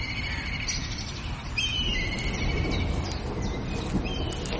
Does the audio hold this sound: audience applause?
no